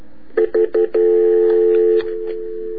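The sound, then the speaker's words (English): Touch-tone telephone keypad dialing a number: a quick run of short DTMF beeps, the last one held longer, then a quieter steady tone continues on its own. “And we don't want people hearing his number, so I'm trying to talk over it. Let's see if I can dial and talk at the same time.”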